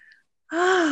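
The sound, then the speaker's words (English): A group taking a collective deep breath together: after a brief faint sound and a moment of silence, a short, voiced intake of breath with a steady pitch comes in loud and holds to the end. “Collective breath.”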